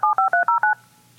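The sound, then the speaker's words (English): Telephone keypad DTMF tones dial a call: five short, evenly spaced two-tone beeps in a quick steady rhythm, each clear and fairly loud, followed by a faint fading hum. “We're dialing in now.”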